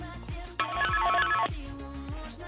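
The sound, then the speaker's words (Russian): A telephone ringing as a listener calls into a studio during a quiz: one sustained, bright ringing burst of about a second rises out of a quieter background music bed, which carries on before and after it. “У нас есть звоночек в студию.”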